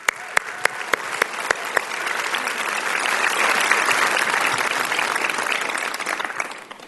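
A church audience claps to warmly welcome a visiting reverend, opening with a few distinct separate claps before swelling into full, dense applause that peaks midway and stays strong to the end.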